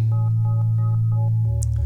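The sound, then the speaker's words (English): Synthesizer tones from a Runaway Oscillator module played alone: a loud, steady low drone under a quick, regular run of short pulsing tones, with the drone dropping lower near the end. “All the sounds you're hearing are coming out of, you know, the Runaway Oscillator by itself.”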